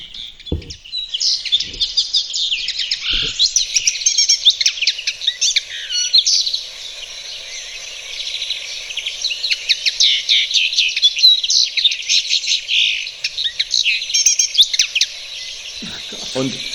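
Song of a small, slender finch-like bird resembling a goldfinch: a continuous, high-pitched stream of rapid twittering chirps and trills with only brief breaks, heard alone without talk.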